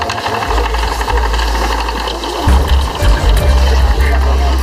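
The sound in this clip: Mechanical rattling whir of a hand-cranked wheel for twisting linen thread, turned steadily. A continuous low rumbling drone with busy clatter runs throughout and grows louder and heavier about halfway through.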